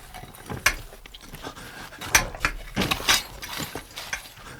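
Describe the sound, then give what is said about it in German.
Someone chisels an air hole, making many irregular knocks, taps and scrapes with an uneven rhythm. Some strikes are sharper and louder, others light and gritty, with no voices. “Wir meißeln ein Luftloch.”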